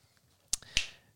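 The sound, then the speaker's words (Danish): Two crisp finger snaps come in quick succession, sharp and bright, heard alone against a quiet background while a dog owner is asked to snap. “Der knipsede du. Kan du ikke knipse?”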